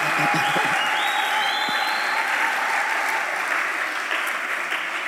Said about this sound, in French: Que les jeunes acclament à la manière de la jeunesse.